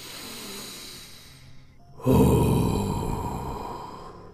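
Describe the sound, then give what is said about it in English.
A single deep breath taken at the start of a meditation: a long, loud, breathy rush of air that begins about halfway through and slowly fades, with no talking. “Take a deep breath with me as we start our courage meditation.”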